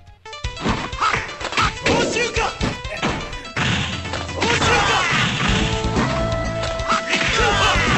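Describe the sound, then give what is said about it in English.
Video game fight sounds: a rapid run of heavy punches, whacks and crashing impacts, then a denser stretch of hits mixed with effects and tonal music. “And fighting in the game sounds like this.”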